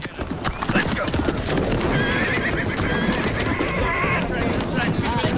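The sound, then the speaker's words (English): Wild mustangs neigh and whinny as they are released from a transporter at a horse sale, with hooves clattering steadily under loud, repeated high calls. “Jameson supervises the releasing of wild horses from a transporter.”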